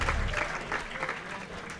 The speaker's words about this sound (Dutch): Applaus. applaus en hoongelach.